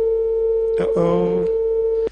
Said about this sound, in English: Okay, we seem to have lost that caller.